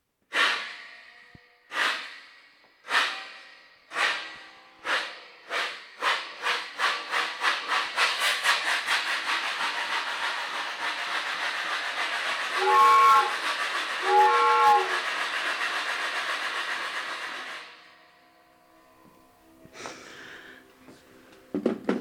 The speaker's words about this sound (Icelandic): skulum líka nota þessa lestavél